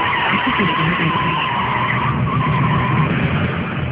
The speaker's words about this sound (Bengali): গাড়িতে ব্রেক কষতে গিয়ে একটু দেরি করে ফেলল, ব্রেক কষতে কষতে মানবিকা